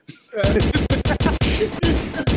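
Rapid gunfire: many loud, sharp shots in quick succession, forming a dense, nearly continuous volley.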